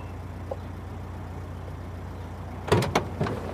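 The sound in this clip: A car door opening and thumping as someone gets out of a car: a few sharp knocks and clunks near the end, after a long stretch of steady low engine hum.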